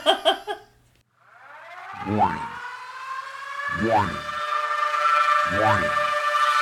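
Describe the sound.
Warning siren sound effect: a swelling synthetic wail that rises in pitch three times in a row over a sustained, building tone, with a brief voice-like burst at the very start.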